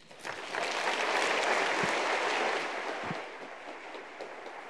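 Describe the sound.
An audience applauds to welcome a guest speaker. Clapping from many hands swells quickly, holds strong and dense for a couple of seconds, then eases to a lighter, steady patter toward the end.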